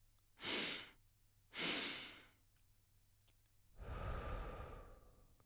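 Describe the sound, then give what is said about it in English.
Breathing exercise with two short, sharp sniffing inhales through the nose, spaced about a second apart, followed after a pause by one longer, fuller, airy exhale through the mouth. “I want you to take two breaths in through the nose and then release through the mouth.”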